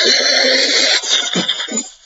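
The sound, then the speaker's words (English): A voice imitates crackly static with a harsh, hissing rasp that holds steady for about two seconds, then breaks into rougher crackling bursts and trails off at the end. “I'm going to suffer for this particular art later when I have to transcribe static”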